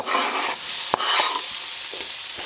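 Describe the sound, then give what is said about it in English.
Chopped onion sizzles after being scraped off a cutting board into shimmering hot oil in a pan, giving a steady bright hiss broken by a couple of short clicks. “the oil rather, looks like it's got a nice shimmer to it in the pan. So I'm going to go ahead and scrape the onion in there off the cutting board.”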